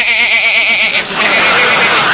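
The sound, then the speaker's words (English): A sheep bleats in a comic sketch, one loud, wavering bleat lasting about a second before dissolving into a rougher noisy wash. “Here's the sheep man.”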